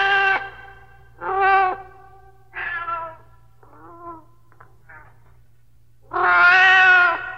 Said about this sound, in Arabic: مواءها يناديني فأسرع إليها فتقترب مني وكأنها تقول أطعميني